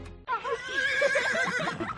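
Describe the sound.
A horse neighs once in a riding-centre advertisement. The loud, shrill whinny lasts under two seconds and has a quavering pitch that trembles throughout.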